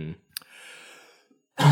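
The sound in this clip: Coughing from a tickle in the throat: a short throaty burst, a quiet breathy pause, then a louder harsh cough.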